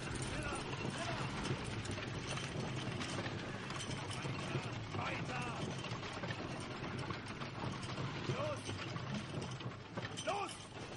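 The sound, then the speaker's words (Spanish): A wooden cart rumbles and rattles as several prisoners push it along in a Holocaust camp during World War II. A continuous, clattering roll runs through the whole stretch, with indistinct voices mixed in. “Saúl y sus compañeros empujan de nuevo el carro.”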